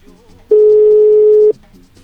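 A telephone ringing tone on an outgoing call: one steady electronic burst lasting about a second at a constant mid pitch, loud and unbroken, with only faint background before and after.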